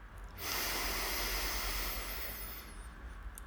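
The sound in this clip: A slow, deep breath drawn in during a guided relaxation exercise: a steady, airy hiss that swells quickly and holds for about three seconds, with no talk over it.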